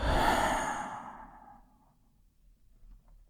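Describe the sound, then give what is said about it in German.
A deep breath is released through the mouth as one long, breathy exhale that starts loud and airy, then fades away to near silence. “Atme tief ein und durch den Mund aus.”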